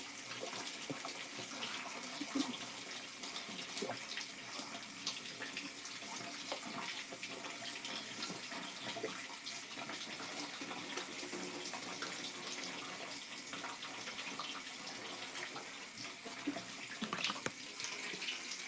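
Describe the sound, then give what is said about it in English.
Tap water runs steadily while someone washes their face at a sink, a constant bright hiss with small splashes scattered throughout, fairly soft and with no talking. “Man, I feel so weird washing my face.”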